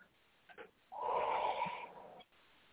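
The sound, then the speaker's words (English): A deep, calming breath, one long, soft, airy rush of air lasting over a second, faint and alone with a few small breathy sounds before it. “And we're going to take a breath.”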